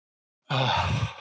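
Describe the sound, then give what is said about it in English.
A single deep breath breaks a short silence: an airy, sustained rush of breath that holds steady and fades slightly at the end. “I notice I'm holding my breath, so I'm going to take a breath.”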